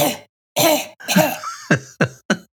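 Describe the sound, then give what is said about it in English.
A few short, sharp coughs, likened to a toddler's, come at the end after some voiced, groan-like throat sounds. “It's like a toddler cough.”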